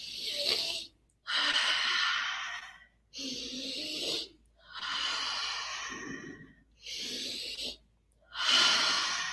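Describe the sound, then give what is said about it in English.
A person breathing through a paced exercise with quick, forceful inhales and slower, longer exhales: six airy, hissing breath sounds of moderate loudness, each separated by a short silence. “sort of speed up and amp up the inhale and then exhale slowly a little bit longer than the inhale. So I'll demonstrate for three breaths. So it looks like this.”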